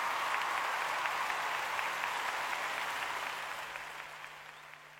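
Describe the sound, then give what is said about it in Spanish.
Audience applause, a dense, even patter of many hands clapping that holds steady and then gradually tapers off toward the end. “Fuerte el aplauso, gracias.”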